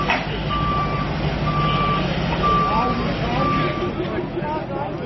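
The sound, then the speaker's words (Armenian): Tow truck reversing beeps ring out on a city street as police haul cars away. Four evenly spaced, steady high beeps sound over a constant low engine rumble and traffic noise. “Ոստիկանները մեքենաները ճանապարհից քարշակների միջոցով հեռացրին։”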